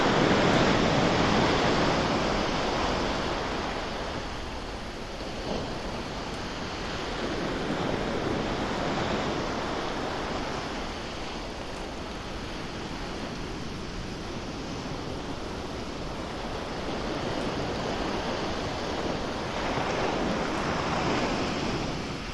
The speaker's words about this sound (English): Breathe deeply and allow the sound of each wave to wash completely through you, clearing and cleansing wherever necessary.